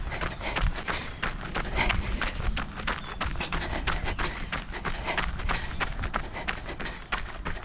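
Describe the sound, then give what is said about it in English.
Footsteps of someone running past thud in a quick, steady rhythm, many hard strikes over a constant noisy background, with no voices. “They take a photo, their shadow covering the flower, and resume running. Someone runs past.”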